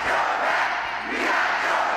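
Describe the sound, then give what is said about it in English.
About 2,000 supporters cheering and shouting at a raucous political rally in a packed school gym in Detroit, Michigan. The crowd makes a loud, continuous roar that stays steady throughout. “2,000 supporters cheering President Biden in a packed school gym in the important battleground state, Michigan.”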